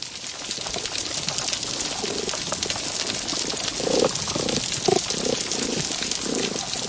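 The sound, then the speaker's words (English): Dense crackling of many snapping shrimp fills a healthy coral reef soundscape underwater, a continuous bustling fizz of sharp clicks with occasional lower pulses beneath. “it's an incredible soundscape when you hear a healthy coral reef. And in that, you could hear the snapping shrimp, many more of them.”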